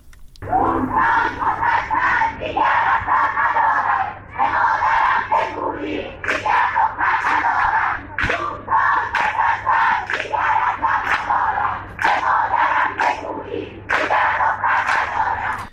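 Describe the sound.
Students at Allameh Tabatabai University in Iran chant at a protest rally. Many voices shout in a steady, rhythmic cadence of short phrases that repeat with brief gaps, loud and unbroken for the whole stretch.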